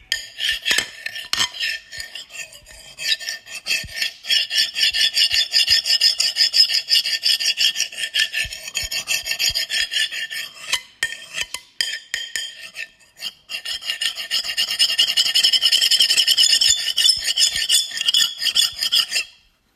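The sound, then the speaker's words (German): A knife scrapes harshly across a plate in a run of loud, rasping strokes with short gaps between bursts, followed by a longer continuous scrape near the end. No one speaks. “Jetzt haben wir hier ein Messer und einen Teller.”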